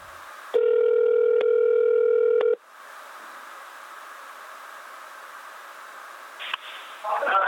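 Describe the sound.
A telephone ringback tone on an outgoing call to the United States: one loud, steady, buzzing ring lasting about two seconds, then quiet line hiss with a brief click and faint rustling near the end.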